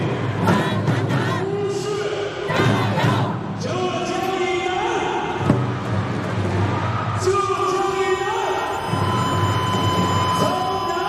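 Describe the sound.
Spectators at a basketball game cheer and chant in a loud, continuous roar, with sustained tonal sounds running through it and a voice talking over the noise.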